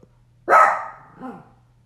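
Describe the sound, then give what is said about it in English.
A dog gives one loud, sharp bark that trails off, followed by a fainter, shorter second bark. “He hears the dogs barking.”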